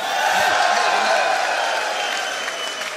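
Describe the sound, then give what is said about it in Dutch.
Campaign supporters at a party election gathering applaud and cheer for themselves, a loud, sustained crowd roar of clapping mixed with voices that eases off slightly toward the end. “Jullie allemaal en al die mensen in het land die zo ongelooflijk hard campagne hebben gevoerd, van harte gefeliciteerd. Juich maar voor jezelf.”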